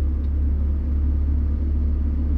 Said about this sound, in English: That was a quick drive. It would have taken way longer on the bus.